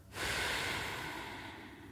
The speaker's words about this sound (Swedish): Så tar du ett djupt andetag in.